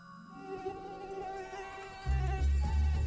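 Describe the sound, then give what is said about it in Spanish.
A mosquito whines as it circles the head of a lion napping under a tree, a thin, wavering insect buzz that grows noticeably louder and fuller in its final second, with no talk over it. “empezó a molestar un mosquito. Mm-hmm. Se le acercó y el mosquito empezó a darle vueltas alrededor de la cabeza.”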